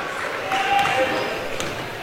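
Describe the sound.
Basketball dribbled on a court during a 2019 high school boys' game, Amity vs Burns at La Pine, with a few faint bounces under a steady crowd murmur.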